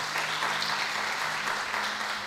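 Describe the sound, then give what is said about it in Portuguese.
Applause at a church worship service: a dense, continuous wash of clapping at a steady level, with a faint low hum underneath. “Dá mais uma salva de palmas a Jesus.”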